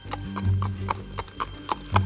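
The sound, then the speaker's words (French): A small donkey carrying a rider clip-clops along a road, its hooves making a steady, evenly spaced series of hollow knocks over a low background hum. “Assis sur un petit âne, Marie supporte sans se plaindre tous les chaos de la route.”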